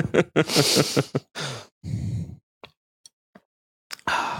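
Breath noise into a microphone: a run of loud, breathy puffs and sighs, a longer exhale, then a few faint clicks before another breathy burst.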